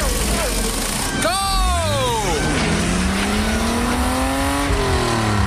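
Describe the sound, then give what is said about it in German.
Race car engine entering the pit lane, first sweeping past with a sharp fall in pitch, then settling into a lower note that climbs steadily, loud over constant background noise. “Achtung, Wagen Nummer 12 biegt in die Boxengasse ein. Das Auto läuft klasse, das Fahrwerk ist fantastisch. Jetzt noch neue Räder drauf, los!”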